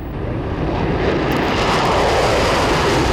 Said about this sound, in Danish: Overlydsflyet Concorde løftede for sidste gang i dag den sylespidse næse fra asfalten i John F. Kennedy-lufthavnen i New York